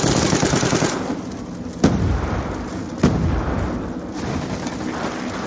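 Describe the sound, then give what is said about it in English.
Rapid gunfire from the Ferret .50 cal in a video game, a dense, sustained roar of shots with two sharper, louder cracks standing out midway. “The Ferret 50 cal isn't the one hit kill anymore. Are you fucking kidding? What's the point of the gun?”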